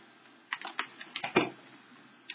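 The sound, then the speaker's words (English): Scattered clicks and light knocks come from a chair being put back and a computer being plugged in. A quick cluster of taps sits in the middle, faint and without talk. “So I'm just putting the chair back in, plugging the computer back on.”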